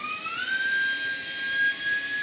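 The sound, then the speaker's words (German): High-pitched whine of a surgical drill boring a 1.4 mm anchor hole in bone during arthroscopy, the tone rising quickly as it spins up and then holding a steady, piercing pitch. “Der Bohrkanal also für den kleinen Anker, der das Ganze dann anheften soll. Der ist nur 1,4 mm stark, dieses Loch, das wir jetzt gebohrt haben.”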